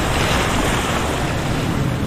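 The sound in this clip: Ocean waves churned up by a sea cyclone, a loud, continuous roar of surf with wind noise, steady throughout with no clear breaks between swells.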